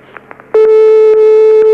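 A telephone gives its first ring during a cash-prize phone-in game. After a faint, quiet lead-in, a loud, steady electronic tone starts abruptly and holds unbroken to the end.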